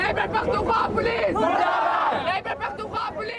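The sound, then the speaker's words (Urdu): Protesters at a transgender rights demonstration in Peshawar chant slogans against the government and law enforcement. Many voices shout together in loud, rhythmic bursts with rising and falling pitch, and scattered crowd chatter runs underneath. “مظاہرین نے حکومت اور قانون نافذ کرنے والے اداروں کے خلاف نعرے لگوائے۔”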